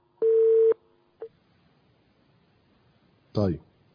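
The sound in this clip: A telephone call connecting on a phone-in line: one steady electronic tone lasting about half a second, then a short click, followed after a pause by a brief burst of voice.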